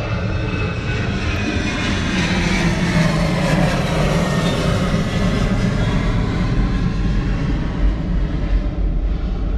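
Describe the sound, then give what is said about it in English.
Roar of an airplane taking off from the nearby airport and flying over Liberty Station: a loud, steady, broad engine rumble with a rushing hiss that holds evenly from start to finish. “Liberty Station's right at the end of the route, the airport. So you get those flyovers all the time for takeoffs. That's a takeoff.”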